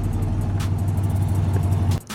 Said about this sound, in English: started the engine, put on his sunglasses, and drove off